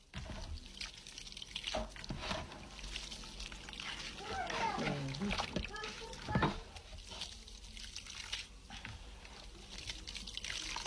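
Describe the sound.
Water being poured into a container: a steady, noisy wash of splashing and dripping that runs through the whole clip, with a brief voice-like sound rising over it midway.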